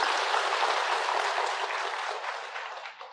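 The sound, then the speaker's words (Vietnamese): An audience applauds during a Buddhist dharma talk. The clapping is dense and continuous, holds steady, and eases off slightly toward the end. “Đúng vậy, hoan nghênh câu đó, một tràng phát tay giùm tôi.”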